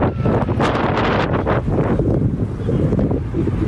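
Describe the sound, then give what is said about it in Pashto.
Strong wind blows outdoors around the tents of earthquake survivors in Zindajan district in cold weather. It makes a loud, steady roaring rush with no break, buffeting the microphone from start to end. “نږدې هر ورځ او شپه دلته سخت بادونه او توپانونه چلیږي”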